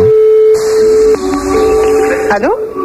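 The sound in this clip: A telephone line tone at the start of an outgoing call: a single steady pitched note holds for about a second, then gives way to busier tonal sounds and a few brief rising glides near the end.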